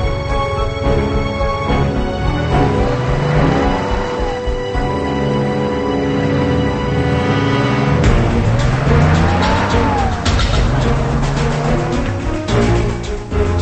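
A car drives away with its engine roaring loudly and continuously, tyres squealing at times, and the engine note rising and falling as it revs throughout.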